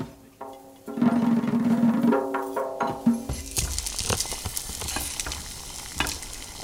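Chickpeas and white beans sizzle and fry in a pan while being stirred, browning before going into an abgoosht stew; a steady crackling sizzle runs throughout, broken by a few sharp spatula scrapes and knocks against the pan.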